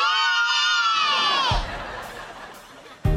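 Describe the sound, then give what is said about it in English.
A group of children cheers in unison with one loud, high-pitched shout that falls in pitch and fades after about a second and a half, followed by brief quiet. “They'll cheer for anything if you say it like that.”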